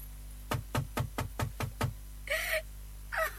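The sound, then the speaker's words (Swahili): Seven quick, evenly spaced dull knocks, followed by two short vocal sounds from a person. “Hapa mimi nabisha.”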